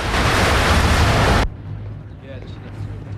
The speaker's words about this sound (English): A torrent of water blasts out of the plug hole.